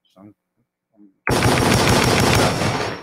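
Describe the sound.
Rapid automatic gunfire sound effect that erupts suddenly after a near-silent start with a couple of faint vocal sounds, then stays loud and sustained before easing slightly at the end.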